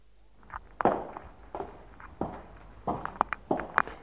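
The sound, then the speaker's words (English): Footsteps going down stairs into a house cellar: several irregular thuds and scuffs of varying loudness, with sharper knocks among them. “And here in the cellar, I'm going down the stairs now.”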